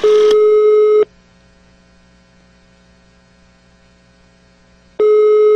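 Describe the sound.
A mobile phone call tone sounds: a steady electronic beep lasting about a second, a pause of roughly four seconds with faint hum, then the same beep again.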